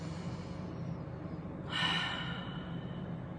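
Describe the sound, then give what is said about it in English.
A single short, soft breath taken as a deep breath in a calming exercise for anxiety. It comes alone after a quiet stretch and rises briefly over a low steady hum. “just take a moment and take a deep breath.”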